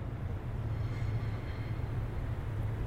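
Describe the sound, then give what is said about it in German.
A suburban train rushes past right beside a backyard fence. Its steady, dense rumbling roar is heavy in the low end and holds an even loudness throughout, with no break or clear swell. “Eine Vorstadtbahn rauscht direkt am Zaun des Hinterhofs vorbei”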